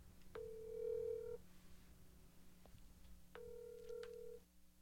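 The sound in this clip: Faint telephone ringback tone of an outgoing call: two steady buzzing rings, each about a second long, separated by a pause.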